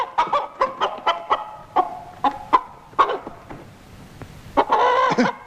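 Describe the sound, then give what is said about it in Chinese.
Chickens cluck in many short, choppy calls at an uneven pace, with a denser, louder burst of clucking near the end; no voices. “老头老太放出鸡，偷吃人家的谷子”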